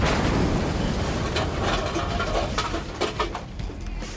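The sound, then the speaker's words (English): A cartoon explosion from a big bomb bursts out as a loud, broad roar with crackling texture, strongest at the start and then rumbling on at a slightly lower level until the end. “Did we get him? Yeah, Tef, I think we did. Guri exploded pretty big.”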